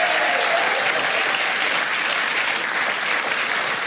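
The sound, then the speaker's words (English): Studio audience applauding as a guest is brought onto the stage of a television show: loud, dense, sustained clapping that holds steady throughout with no talk over it. “Put your hands together for Peter Drake. Come on, Peter.”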